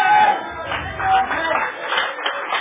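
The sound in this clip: A church audience applauds with loose, uneven clapping that swells and dips at a moderate level, with voices mixed in.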